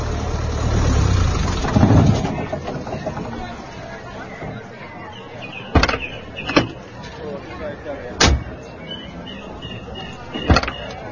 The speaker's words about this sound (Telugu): అదిగో వచ్చేస్తున్నాడు, ఇంకో క్షణంలో ఇక్కడే ఉంటాడు. అదిగో కారు చప్పుడవుతోంది కూడా.